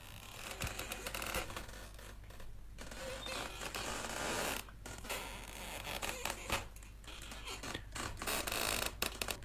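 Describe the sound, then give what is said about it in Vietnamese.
Hammock rope creaking as it tightens against the trunk of a chinaberry tree on a hot midday: a continuous rasping, scraping creak that runs the whole way through, with a few brief dips in loudness. “cái âm thanh cái dây võng nó xiết vào gốc cây nó cũng y như thế này vậy”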